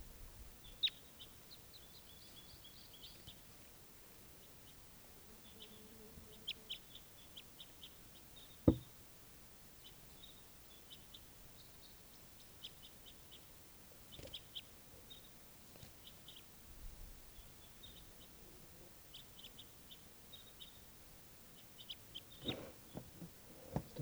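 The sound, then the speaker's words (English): Faint, high bird calls chirp in short scattered bursts over a quiet, hissy background, with one sharp knock partway through. “Oh, bird.”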